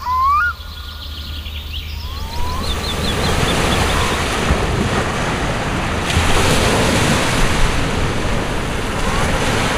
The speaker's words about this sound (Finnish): Aallot lyövät tasaisesti hiekkarantaan.